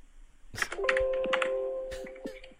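Typing on a computer keyboard heard over a phone call: an irregular cluster of fairly loud clicks and taps, with steady sustained tones running underneath.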